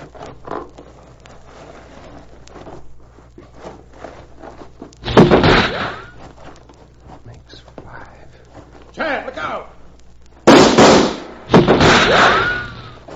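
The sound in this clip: Revolver gunshots in a radio drama shootout: a few loud, sharp bursts with ringing tails, spaced apart, with quieter murmured voices and faint rustling between them.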